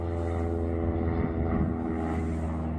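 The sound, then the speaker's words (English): An airplane flying away overhead makes a steady, fairly loud droning roar that holds evenly throughout, with a low rumbling engine tone and no voices. “I don't know if you can hear that. That's a plane, but it's going away.”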